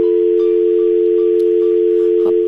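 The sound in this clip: A phone line tone sounds after a call to a radio guest drops. It is one steady, unbroken pitch held at the same loudness throughout, with nothing else over it.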